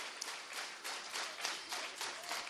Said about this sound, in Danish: Jeg kan høre på applausen, at Ulla hun er genvalgt.